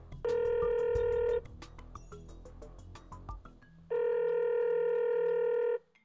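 A telephone rings in two long, steady electronic bursts while a call is placed, separated by a stretch of scattered clicks and handling noise. No voices are heard.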